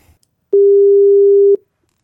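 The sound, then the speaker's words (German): A single steady mid-pitched telephone tone sounds while a call is being placed, holding level for about one second. It is loud and clean, with silence before and after. “ich hoffe sehr, dass du jetzt Herrn Drescher anrufen ja, willst.”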